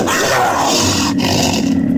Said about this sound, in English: If you said today's creature calling in is a mountain lion. Or you might have said a puma, or maybe a jaguar.